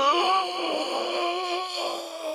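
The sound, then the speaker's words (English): A voice manipulated on an inward breath makes a sustained, wavering moan with rich, buzzy harmonics. It holds at an even, moderate loudness throughout, with no clear words and only slight swells in pitch. “We started manipulating his voice. We started using inward breath”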